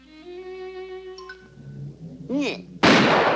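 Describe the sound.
A cartoon gunshot: one sudden, loud, harsh blast at the end that rings on briefly, after a held musical tone and a short bending vocal sound.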